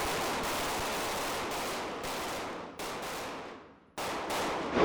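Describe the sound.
Gunshots from a firearms training drill for school staff in Colorado, with shots fired at a mock knife-wielding aggressor: loud, sharp reports in quick succession, blurring into dense bursts separated by brief gaps.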